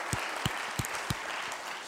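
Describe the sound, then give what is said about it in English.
Congregation clapping for the Lord at a church service, a soft wash of many hands with four louder, distinct claps landing in a fairly regular beat. “Give the Lord a hand clap for that.”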